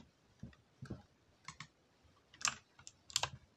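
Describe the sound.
Computer keyboard keys pressed while playing a PC game: a few faint, sharp clicks and taps at irregular intervals, some in quick pairs, heard alone without talk.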